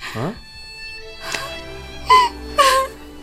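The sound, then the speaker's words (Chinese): A woman cries in a few short, wavering wails and whimpers separated by quiet gaps. The last two sobs are the loudest. “我最受不了就是女人哭了。”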